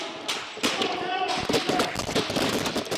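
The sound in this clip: Gunfire from an attacker's gun, captured by a camera mounted on the weapon during a recreated office attack: several sharp, loud bangs in quick irregular succession, mixed with chaotic voices.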